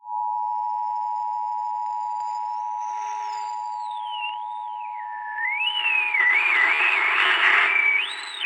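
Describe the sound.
Telephone line tones of an incoming caller: a loud steady pure tone runs throughout, joined by thin sliding, warbling electronic tones that turn noisier and busier toward the end.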